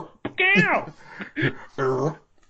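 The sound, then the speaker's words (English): A person vocally imitates the cat-like yowl that the lizard enemies make when bopped on the head in the video game Donkey Kong Country: a few drawn-out, wavering wails, the first sliding down in pitch. “would have to be the lizard people from Donkey Kong Country. That when you bop them on the head, they go... Yeah. Like they make like a cat noise instead of like a lizard.”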